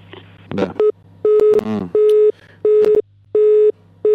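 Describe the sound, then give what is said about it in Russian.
A telephone busy tone after a dropped call: a steady mid-pitched beep repeating in even pulses, about six of them, with brief voice sounds over the first couple. “прервалась связь с Егором Ярославлем”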